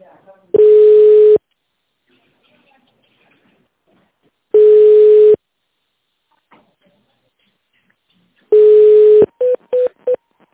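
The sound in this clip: A phone menu call: three long, even ringing tones spaced a few seconds apart, then four quick, short beeps like keypad presses choosing a number.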